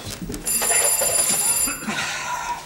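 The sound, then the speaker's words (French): A telephone bell rings in one sustained, bright metallic burst of just over a second, then stops, leaving only low background noise. “Le téléphone.”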